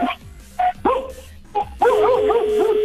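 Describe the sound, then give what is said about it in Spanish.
A dog barking, with a few sharp, high yips in quick succession, then a longer whining bark whose pitch wavers up and down, loud and close. “Ya deja de ladrar”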